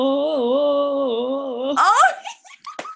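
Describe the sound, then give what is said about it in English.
A person wails a long sustained note into a microphone, singing a held tone with a slight waver, then breaks off into bursts of laughter. “One episode in, you've already got me wailing down the microphone.”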